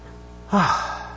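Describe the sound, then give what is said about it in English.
A man out of breath after running into the studio lets out a single loud, breathy gasp with a voiced, falling tone, set against a low steady background. “Let me catch my breath, folks. I literally ran into studio.”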